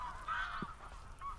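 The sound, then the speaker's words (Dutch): Geese honking as the flock takes off, a few faint, nasal calls rising briefly over a quiet background. “Alle ganzen vliegen op.”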